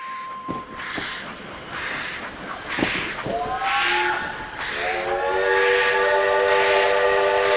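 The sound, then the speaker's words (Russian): A steam locomotive whistle sounds at a busy railway station. After a few scattered knocks and clanks, the sharp, multi-toned whistle starts, swells and holds loud and steady to the end over a hissing background. “Он начался резким гудком паровоза, таким неожиданным, что я даже испугался. Суета на вокзале.”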